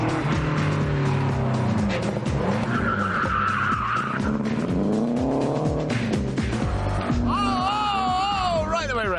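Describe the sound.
A race car oversteering through a hairpin bend on a racetrack, its tyres screeching in long, wavering squeals over a continuous loud engine roar, ending in a high, wobbling squeal.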